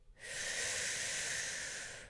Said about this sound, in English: let's take a nice big deep breath in and out and in